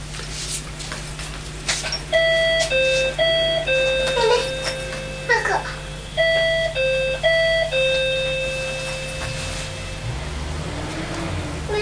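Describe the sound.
An electronic doorbell chime plays two rounds of stepped tones, each a short repeated pattern of clear notes. A steady low hum runs underneath, with a few scattered clicks between the rounds.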